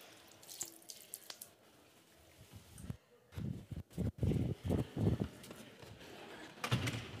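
Water runs from a tap to soak a towel. Faint hiss and trickling give way to a few louder, choppy gushing splashes in the middle, then settle back to quiet running.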